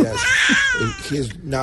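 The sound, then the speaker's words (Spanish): An infant granddaughter cries in a high, wavering wail that holds and bends in pitch, with talk running alongside the crying throughout. “Llora muchísimo, pero al fin y al cabo es mi nieta.”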